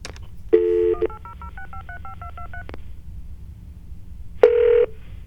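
Telephone keypad dialing tones as a toll-free number is entered: a rapid string of many short beeps at shifting pitches, bracketed by longer buzzy tones, with a pause before the final tone.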